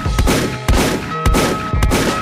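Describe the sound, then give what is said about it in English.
Gunshot sound effects: four loud, sharp blasts at an even pace, each followed by a long, ringing tail before the next shot. No voices. “Man, let's ring these shots out.”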